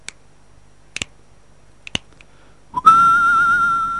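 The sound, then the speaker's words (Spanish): Whistled street-gang calls with finger snaps: a few sharp, sparse snaps, some in quick pairs, then a loud, sustained whistle that slides upward and holds a wavering tone to the end. “Mientras se escuchan las llamadas de las pandillas a ritmo de silbido ese. Y chasquido.”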